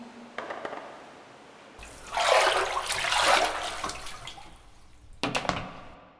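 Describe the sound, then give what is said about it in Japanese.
Hot water poured over a body in a bath: a broad, rushing splash of a few seconds, then quieter dripping and a short second splash near the end, with no voices. “まずは、体洗っちゃおうか。お湯かけて。”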